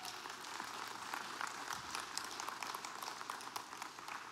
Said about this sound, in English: Yeah, give them a hand as they come.